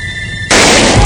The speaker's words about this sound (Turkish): Önce bir el silah sesi duyuldu. Ardından ikinci el daha ateş edildi.